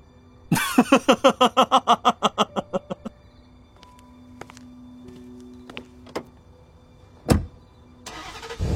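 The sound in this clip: A car engine starts at night: a quick, regular run of cranking pulses lasts a few seconds and then stops, followed by scattered faint clicks and one sharp knock.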